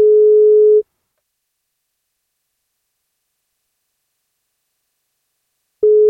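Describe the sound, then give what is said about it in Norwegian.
Ringback tone of an outgoing telephone call: a steady mid-pitched tone sounds for just under a second, then a long silence, then the same tone starts again at the very end. “Vi får ringe og høre om vi får tak I Kristoffer eller Sandra da.”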